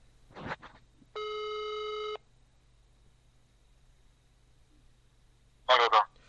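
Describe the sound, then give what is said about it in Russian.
While a call is being placed, a telephone ringback tone sounds once as a steady electronic tone lasting about a second, with brief snatches of voice before it and again near the end. “Короче, сейчас я наберу Виталий”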